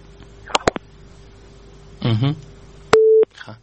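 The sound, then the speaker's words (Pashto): A busy tone sounds after a phone line is cut. A few sharp clicks and a brief voice come first, then a single steady mid-pitched beep holds for about a third of a second before more faint clicks. “اړیکه یې پرې کړه”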